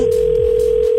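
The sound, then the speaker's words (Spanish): A telephone dial tone sounds at the start of a prank phone call: a single loud, steady hum holds unbroken at a fixed pitch for about a second. “Hoy en la clavada telefónica que vas a escuchar en exactamente 5 minutos, llamé a mi madre para ver si ella estaba presente en el cuarto cuando yo nací.”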